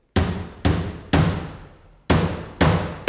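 A hammer pounds a nail in a run of hard, ringing blows. Each strike decays briefly before the next, with a longer pause partway through the series.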